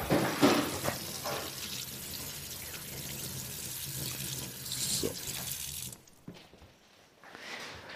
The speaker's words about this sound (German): Währenddessen kann ich mal meinen Ring waschen.